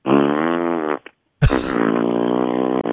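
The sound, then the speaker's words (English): A man's voice imitates a loud fart like one let out by a man at a urinal in a store restroom: two long, buzzing, low raspberry blasts separated by a brief silence, the second starting with a sharp burst. “and so he's sitting there farting the whole time he's peeing.”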